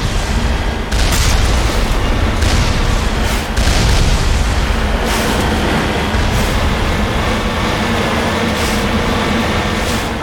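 Booming gunshots from long-range shooting at barely visible enemies in a video game, a few sharp reports rising out of a loud, continuous low rumble.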